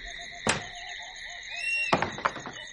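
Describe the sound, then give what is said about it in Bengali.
A wooden door bolt is drawn open from inside a front door. One sharp clack comes first, then after a pause a rapid cluster of several clunks and rattles, all over a steady tonal drone. “যে সময়টা তিনি কড়া নাড়ছিলেন ঠিক সেই সময়ই দরজার ভিতর থেকে হুড়কো খোলার শব্দ হল।”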